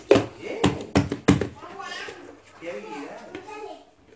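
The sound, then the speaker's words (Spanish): Four sharp plastic clicks as a child closes the lid of a plastic tupper container, each a quick snap, followed by a child talking. “Tengo que cerrar bien esto, mamá. Esta es la tapa de este tupper, ¿no?”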